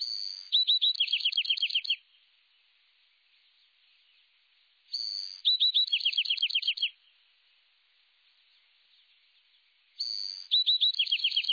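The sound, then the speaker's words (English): An adult male Bewick's wren sings a crisp, well-defined song three times, separated by long silent pauses. Each high phrase opens with a clear note and runs into a rapid, buzzy trill. “The young Buick's wren is listening to the song of his father, who sings a crisp, well-defined song, separated by pauses.”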